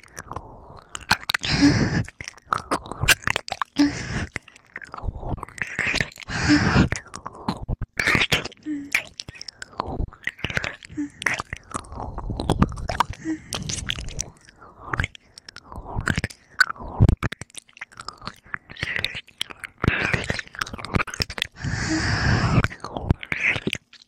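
Chewing and biting sounds of someone eating food, with many moist, crunchy mouth noises repeating in a steady, irregular rhythm, fairly loud and close throughout.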